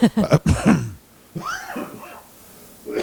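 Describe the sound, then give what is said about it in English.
Coughing from a person: a quick run of rough, raspy coughs, loud and bunched together, then trailing off into quieter throaty, breathy sounds. “As I cough myself to death.”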